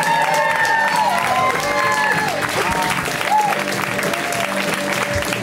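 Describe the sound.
Applause and cheering from a comedy-show audience welcoming a comedian to the stage, continuous clapping mixed with crowd shouts throughout the few seconds, fairly loud.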